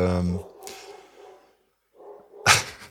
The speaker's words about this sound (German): jetzt bellt im Hintergrund unser Hund.